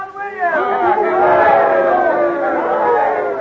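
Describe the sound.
A crowd cheers for John Williams, a tobacco dealer. After a brief quieter start, many voices join in a loud, sustained rousing shout.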